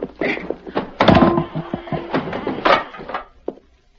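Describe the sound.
Bars of a horse corral lifted and moved aside as a radio drama effect: a busy run of loud wooden knocks, thuds and scraping clunks, ending with one sharp knock after a short pause.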